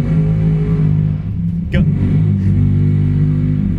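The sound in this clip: A drag racing motorcycle's engine runs steadily at an NHRA race in Atlanta, Georgia, a low, even droning hum that holds its level throughout while a voice talks over it.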